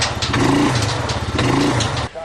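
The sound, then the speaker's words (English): A four-wheeler engine revving hard as its wheels spin while it fails to pull a load. The loud, rough drone surges twice, then cuts off abruptly near the end. “The four-wheeler won't pull it. It's just spinning.”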